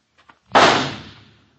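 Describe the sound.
A single rifle shot, fired at rat pests over a back garden plot, cracks out loudly and then rumbles away over about a second. Two faint clicks come just before it.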